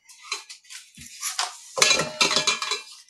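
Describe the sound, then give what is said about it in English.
A spoon clinks and scrapes against a saucepan on medium-low heat as food is stirred to soften it, with a series of light, uneven metallic taps and rattles. “You just use your spoon to let it soften, and there you go.”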